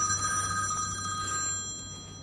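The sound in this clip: A telephone bell rings in a steady, continuous ring. Bright sustained tones sit over a low hum at a fairly even level, easing slightly toward the end.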